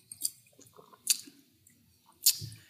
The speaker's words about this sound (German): und vom Geschmack her muss ich nochmal einen Schluck nehmen